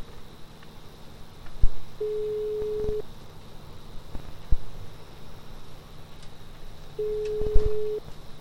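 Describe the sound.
Telephone ringback on an outgoing call: two steady, mid-pitched one-second tones about five seconds apart, over a low background hiss with a few faint clicks.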